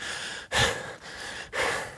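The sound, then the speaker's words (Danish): Heavy panting of a person climbing a steep incline, out of breath with struggling lungs: loud breaths alternate with softer ones in a steady rhythm, with no talking. “er du ryger til daglig, eller hvad? Hvorfor puster du sådan?”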